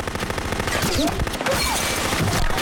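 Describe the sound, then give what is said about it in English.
Gunfire in an ambush on a country road, with shots aimed at a car's driver. A dense, continuous clatter of rapid shots fills the whole clip at a steady, loud level. “The driver is shot”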